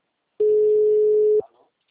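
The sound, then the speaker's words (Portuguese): A telephone line tone after a dropped call: one steady, mid-pitched beep lasting about a second, then a brief fading tail and silence. “Caiu a ligação, por isso que eu retornei, tá bom?”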